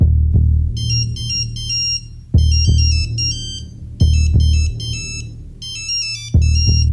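Telephone ringing with an electronic ringtone: a quick melodic phrase of high, bright beeping notes repeats about four times, each phrase separated by brief pauses, over a low, steady musical background.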